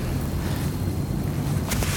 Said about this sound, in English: Is that wind?